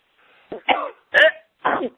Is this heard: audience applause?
no

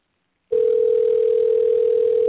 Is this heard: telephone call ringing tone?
yes

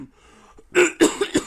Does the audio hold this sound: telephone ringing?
no

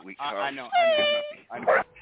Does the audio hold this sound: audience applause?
no

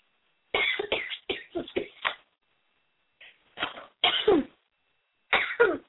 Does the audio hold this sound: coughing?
yes

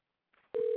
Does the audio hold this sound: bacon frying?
no

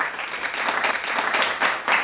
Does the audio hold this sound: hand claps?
yes

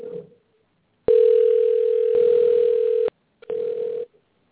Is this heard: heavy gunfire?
no

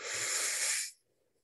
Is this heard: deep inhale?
yes

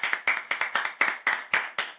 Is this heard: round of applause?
yes

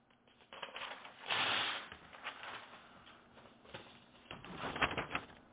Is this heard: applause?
no

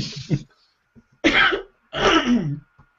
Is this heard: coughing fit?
yes

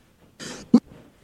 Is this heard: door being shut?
no

